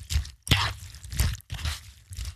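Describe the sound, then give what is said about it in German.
Muesli being stirred with milk, a series of rhythmic wet, crunchy scraping strokes separated by brief pauses, each stroke a soft squishing crunch at moderate loudness. “Was ist das? Richtig, Müsli mit Milch umrühren.”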